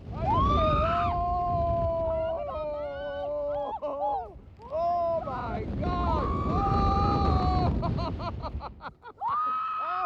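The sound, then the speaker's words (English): Riders scream on a giant swing amusement ride at a seaside Pleasure Beach, the tallest ride of its kind in the UK. Overlapping high, wavering shrieks run almost continuously with brief dips, over a low wind-like rumble. “Let's hear from some of the first riders at the Pleasure Beach.”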